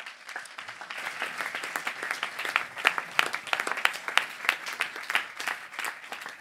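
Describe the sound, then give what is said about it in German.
Applause from a church audience at an adult service at the Panoramakirche in Göppingen: dense, steady clapping from many hands, holding an even level from start to finish. “Und da dürft der Rest mal applaudieren.”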